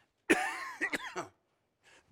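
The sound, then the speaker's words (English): A man coughs during an evening Bible study lesson: one harsh cough burst, then a few shorter rasping throat-clearing bursts, followed by quiet and a faint brief noise at the end. “Man, I started coughing a moment ago.”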